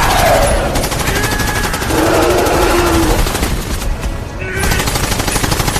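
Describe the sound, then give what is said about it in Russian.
Machine-gun fire as a man shoots at a panther in a forest: loud, rapid, continuous bursts with a short dip in intensity around the middle before the shooting resumes. “Джейк берет автомат и стреляет.”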